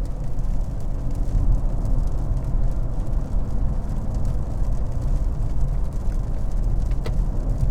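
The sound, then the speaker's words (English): Steady engine drone from a car in fourth gear at about 4,500 rpm and 86 km/h, a continuous low rumble with no talk over it. “Oh, it does that annoying throttle blip too. Oh, you know I hate that throttle blip. I want to downshift. I don't want a little bump in throttle.”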